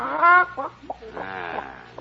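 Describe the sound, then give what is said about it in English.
A chicken clucks in a few short, throaty bursts, then gives one longer drawn-out squawk, fairly loud against a quiet background. “We got a report on a chicken here. A chicken? Oh, no. Oh, no. Don't be silly. It's just a little chicken. Let me inspect that chicken.”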